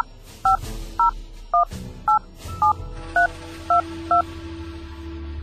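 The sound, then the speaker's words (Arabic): Touch-tone dialing as a character places a phone call: eight short, clear keypad beeps at a steady, even rhythm over a low background hum. “لازم أتصل تلفون وأكلم شواف”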